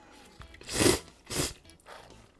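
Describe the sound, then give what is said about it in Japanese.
Peyoung cup yakisoba noodles being eaten, with two loud, noisy slurping bursts followed by a fainter third, separated by short quiet gaps. “じゃあちょっと、ペヤングいただきたいと思います。”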